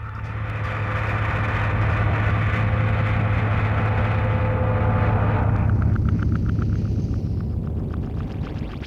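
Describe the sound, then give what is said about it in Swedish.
A rocket launching, a loud, sustained roaring rumble over a deep drone that holds for several seconds, then thins into a rapid, rattling flutter before it tails off. “Das Finale des Stücks ist das Geräusch einer startenden Rakete, die sich metaphorisch über den zuvor kollagierten Raum erhebt.”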